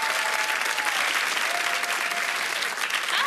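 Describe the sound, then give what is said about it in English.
A studio audience at a show applauds loudly and steadily to welcome a guest, producing a dense, continuous clatter of clapping hands with a faint cheer or whistle in the mix. “So can we put our hands together and welcome to the show, Jessica.”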